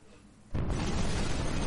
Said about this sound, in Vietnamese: Mặt đất lại bắt đầu rung động một lần nữa, sóng xung kích mãnh liệt tràn ngập trong không khí. Màn hình biến thành một đám hoa tuyết, âm thanh ồn ào liên tục phát ra. Vụ nổ lần này mạnh hơn nhiều so với hai lần trước đó.